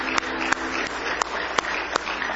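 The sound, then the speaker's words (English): Congregation applauding at a church service, a steady wash of clapping hands with several sharper single claps standing out at irregular intervals throughout. “Give the Lord a big hand clap of praise tonight. Oh, praise the Lord. Give Him a real good hand clap of praise.”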